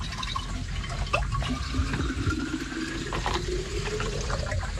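Water running from a public charitable fountain, a steady, continuous splashing flow that stays even in level throughout.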